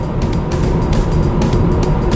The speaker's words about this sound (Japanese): すごい加速度ですね。 1.2 リッターと思えないこの加速の良さで、すごく運転していても気持ちがいいです。